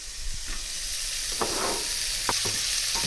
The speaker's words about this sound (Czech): A na sádle budeme postupně opékat slaninu a necháme trochu vyškvařit.